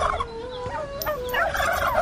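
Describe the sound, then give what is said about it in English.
A large turkey tom gobbles, a fast warbling, wavering call with several bright harmonic tones that stay fairly loud throughout and grow busier toward the end, with no voices present. “I want a giant turkey for Thanksgiving Day.”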